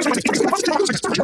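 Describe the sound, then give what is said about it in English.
A radio advertisement played back at extreme fast-forward speed turns into a loud, continuous stream of high-pitched, chattering voices that rush past without pause. “Hey, that sound you just heard was this ad at Superloop speed.”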